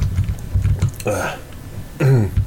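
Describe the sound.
Someone with a troublesome throat clears it in two rough, gravelly bursts, separated by faint mouth and breath noises.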